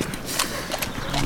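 Restless horse being mounted in an outdoor scene, giving noisy, breathy snorts and scuffing hoof sounds in a dense, rough texture, with a few brief louder bursts.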